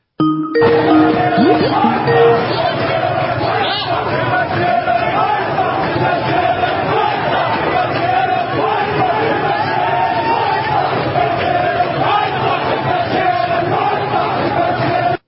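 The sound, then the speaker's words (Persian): A crowd celebrates the people's capture of the city of Susangerd, a loud, dense and continuous mass of cheering and chanting voices that fills the whole clip. “شادی پیروزی مردم در سوسنگرد فتح شهر به دست مردم هیچ نیروی یگان ویژه‌ای در شهر نمونده اینو پخش کردیم یه بار دیگه هم پخش میکنم”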